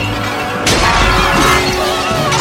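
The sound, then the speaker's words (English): Clay warriors' bodies shatter under swift, decisive blows during a fight. A loud sudden crash and breaking burst lands early, followed by rough crumbling debris in a dense, noisy mix. “Evelyn fends off attackers, shattering their clay bodies with swift, decisive blows.”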